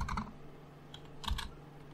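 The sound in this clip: Quiet keystrokes on a computer keyboard while someone types to look something up, a quick cluster of taps at the start, a pause, then a couple more clicks.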